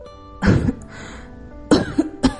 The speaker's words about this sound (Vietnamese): Nàng hít vào một hơi, ho khan mấy tiếng lại tiếp tục.